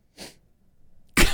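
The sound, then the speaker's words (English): A sniff through the nose, a short breathy intake followed moments later by a louder, abrupt burst of air. “What was the sniff for?”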